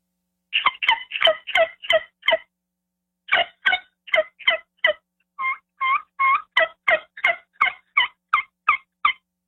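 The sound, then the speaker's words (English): Yelps on a hand-operated turkey yelper call: crisp, short, rasping notes in three quick runs separated by brief gaps, the last run long and steady, all sounding alone without talk. “I don't have a cut call with me. I was just a yelper. But if you're going to do your yelps.”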